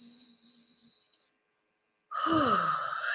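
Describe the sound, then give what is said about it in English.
A deep breath let out as a loud, breathy sigh with a falling voiced tone. It starts abruptly after a near-silent pause and runs to the end. “Take a deep breath.”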